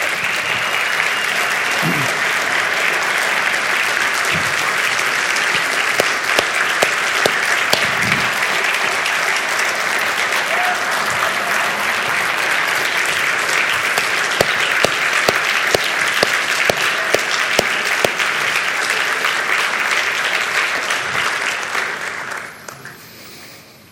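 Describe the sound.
An audience applauds as two guests make their way up to the front, a long, full burst of steady clapping that holds strong for about twenty seconds before fading out.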